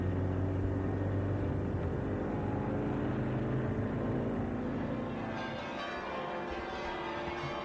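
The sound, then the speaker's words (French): City street traffic in Rome: a continuous low rumble of engines and passing vehicles at a steady level, with no distinct single events standing out. “Il y a beaucoup de circulation à Rome et les gens roulent n'importe comment.”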